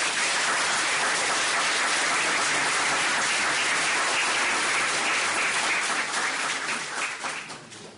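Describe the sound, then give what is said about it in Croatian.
Sustained audience applause for an honoured guest, a thick rain-like patter of many clapping hands that holds steady for several seconds, then thins and fades away at the end. “U tom smislu ja bih predložio čak i aplauz za gospodina Perkovića.”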